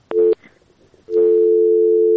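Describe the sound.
Telephone tone after a dropped phone call: a short steady beep, a brief gap, then a long unbroken tone that holds at an even pitch and loudness to the end.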